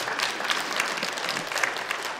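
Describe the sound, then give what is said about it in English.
Congregation applause during a church sermon, a thick, even roar of many people clapping at once that stays loud and steady throughout without a break. “This is the Lord Jesus Christ. You can clap over that.”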